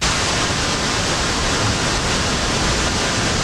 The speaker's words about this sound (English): All right, that was pink again.